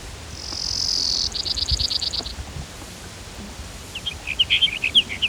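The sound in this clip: Brewer's sparrow song: a high, thin buzzy trill breaks into a rapid run of pulsed notes, and after a pause a looser burst of high chirping notes follows over faint background hiss.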